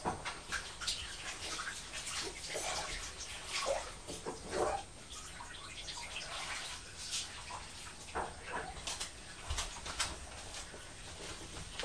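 Bath water splashing and trickling as a child's hands are washed and rinsed in the tub, a steady, fairly soft patter of small splashes running throughout.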